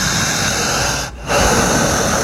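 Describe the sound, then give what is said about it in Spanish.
Deep, loud, panting breath during a breathing exercise focused on long, powerful breaths; a sustained, hissing breath, a brief pause, then another strong, drawn-out breath. “fuerte y profunda, jadeante, insistente. La respiración solamente es potente, profunda y larga.”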